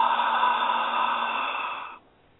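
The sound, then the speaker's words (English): A forceful yoga exhale pushed out through the mouth with a "ha" sound: one steady, breathy rush of air that holds for about two seconds, then stops sharply. “take a full breath in through the left nostril, and then close both nostrils, expelling breath out through the mouth with a ha sound”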